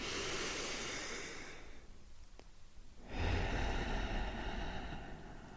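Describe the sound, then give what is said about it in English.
A deep breath in and out fills the quiet: a long, rushing, breathy airflow, a brief hush, then a second loud, noisy breath that carries on to the end. “Let's start by taking a deep breath in and a deep breath out.”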